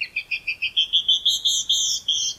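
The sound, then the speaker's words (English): A female canyon wren sings alone: a quick series of about a dozen clear, high whistled notes that climb in pitch. The final notes are longer and fuller. “But many female birds do sing, even in colder climates, such as this canyon wren.”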